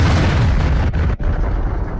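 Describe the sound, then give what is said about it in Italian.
Bombs exploding on a theatre full of families in Mariupol, heard as a loud, dense, continuous booming roar that fills the whole clip, broken by two brief dips near the middle. “Ecco il suono delle bombe russe sul teatro di Mariupol pieno di famiglie.”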